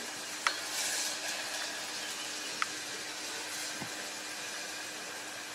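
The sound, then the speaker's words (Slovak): Onion frying in a pan gives off a steady, even sizzle that holds throughout, broken by a few sharp little pops. “Orestovanú cibuľku.”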